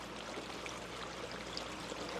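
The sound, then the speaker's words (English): A pond autofill valve spits water into a basin as the level drops, making a continuous, even hissing splash with no breaks. “And then this is the autofill that spits water into this as it lowers. As this goes down, it automatically fills.”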